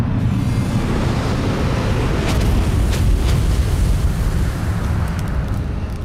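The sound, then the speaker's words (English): Fiery blast of the Flame Apocalypse attack in a turn-based video game battle, a dense, continuous rumbling roar that stays loud from start to finish. “Foe Hyper Atherillion used Flame Apocalypse.”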